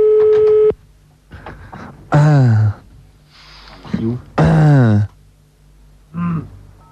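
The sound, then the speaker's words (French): A telephone number being dialed during a prank call, with electronic tones: a steady tone at the start, then a few shorter tone bursts, mixed with loud, sliding, groan-like vocal sounds. “On en fait un autre numéro, là on entend le numéro se composer, donc on refait un autre monsieur et madame Lacrat”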